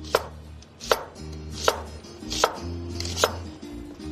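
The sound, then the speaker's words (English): Knife slicing vegetables into thin half moons, five crisp cuts landing at an even, steady pace against a low continuous background. “And we'll just slice these into thin half moons.”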